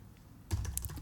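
Computer mouse clicking: after a near-silent moment, a quick cluster of faint, dry clicks rattles off in rapid succession.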